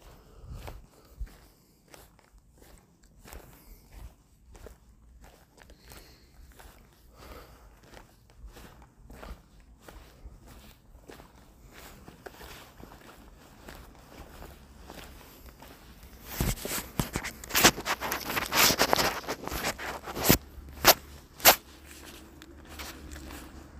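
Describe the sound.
Footsteps walk past a tent beside a lake, many steady steps that stay soft at first, then turn louder and crunchier in the final third.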